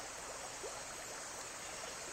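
Water in a stream flows in a steady, soft rushing hiss with faint trickling details mixed in. The sound is even and continuous throughout, and there are no voices.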